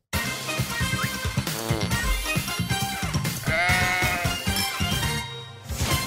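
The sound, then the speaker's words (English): A goat bleats several times in loud, wavering cries that follow one another with little pause and are heard alone without talk. “What is the goat noise? Is it a goat?”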